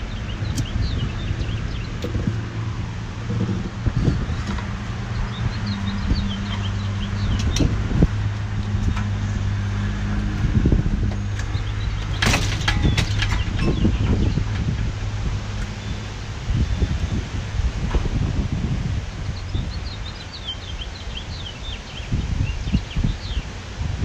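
Wind blows outdoors in Memphis as a steady, rough rush with gusty buffeting on the microphone. Beneath it sit a low droning hum and a few scattered clicks, with no talk.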